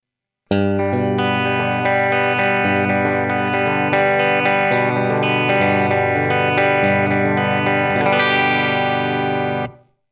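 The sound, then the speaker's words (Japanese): A G chord is arpeggiated three-finger style on guitar, plucked with bare fingers. Many individual notes are picked in a continuous flowing pattern and ring together into a sustained shimmer before cutting off abruptly. “続いて3フィンガー指を使ってのアルペジオです。”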